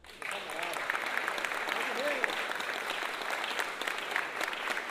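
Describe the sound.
Steady crowd applause for a samba group, a dense, even patter of many hands that runs for the whole stretch with faint voices mixed in.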